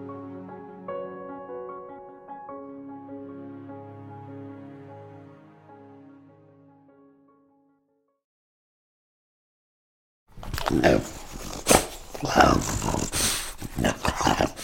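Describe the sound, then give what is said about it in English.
A French bulldog growls and snorts in rough, noisy bursts over the last few seconds, after a stretch of tonal music and a short silence. “It's not exactly the most pleasant of noises. And the French bulldog, that's what you're listening to, isn't the most attractive of animals.”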